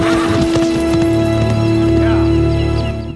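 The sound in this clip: Hooves of a horse being ridden off, a quick run of hoofbeats under a sustained tonal drone, fading at the end.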